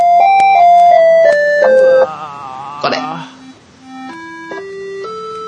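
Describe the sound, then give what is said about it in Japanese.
A cheap electronic keyboard in the style of a Casiotone or PortaSound plays a simple melody of bright, buzzy stepped notes. Clear single tones move up and down, with a brief noisy burst partway through and lower notes toward the end. “なんだそれは、カシオトーンとか、ポータサウンドとか、そこら辺か、 その系ですね、はい。”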